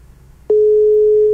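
Ringing tone of an outgoing telephone call that goes unanswered: after a brief quiet moment a single steady, mid-pitched tone starts and holds loud and unbroken to the end.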